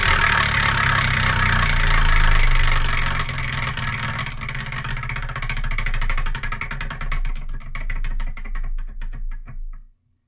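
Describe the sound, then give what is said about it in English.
A prize wheel is spun to pick a manga: rapid ticking clicks that gradually slow and space out before stopping, over a low droning background. “So let's spin and see what we're going to review in the next episode.”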